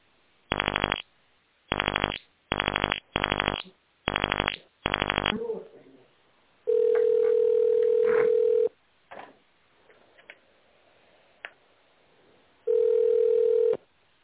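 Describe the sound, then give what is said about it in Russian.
Touch-tone DTMF dialing on a narrowband telephone line: six evenly spaced key beeps, then two long steady ringback tones separated by a quiet stretch with faint line noise. “Пожалуйста, наберите в тональном режиме номер необходимого вам абонента.”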